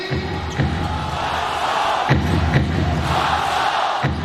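A crowd in an arena roars steadily near the end of a close professional basketball game, loud and continuous, with a few sharp knocks cutting through the noise.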